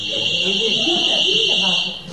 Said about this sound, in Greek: Ωραία, έκανε συναγερμό.